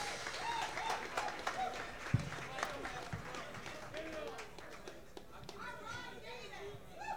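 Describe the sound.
Applause and crowd noise greet a performer from the City Life Orchestra walking onstage, with many sharp claps scattered through a dense, steady murmur of voices.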